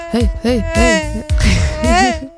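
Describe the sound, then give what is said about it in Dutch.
A buzzing, insect-like tone serving as a Doppler effect demonstration, its pitch repeatedly swelling up and sliding back down in a few arcs, steady and fairly loud, with no voices. “Dit is geen vliegen, jongens. Ik heb jullie het Doppler-effect zojuist uitgelegd.”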